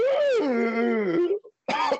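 A person clears their throat with a long voiced rumble that dips and wavers in pitch, breaks off, then gives a short second burst after a brief silence.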